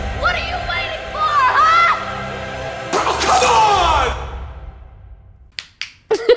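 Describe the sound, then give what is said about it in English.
Finger snapping: a few sharp, separate snaps come near the end, after a stretch of voices. “That was like my fingers just weren't working right there. I don't know what's going on. I don't know how I'm going to time those snaps either.”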